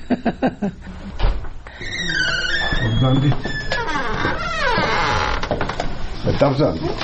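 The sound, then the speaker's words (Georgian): A creaking door to a resident's room in a home for elderly people gives a long, wavering squeal whose pitch bends up and down, with talk heard at the start. “ეს მურმანის ოთახის კარი ჭრიალებს.”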